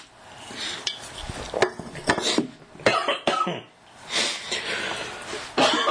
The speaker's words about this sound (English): Oh, pardon me. Got a little dry throat.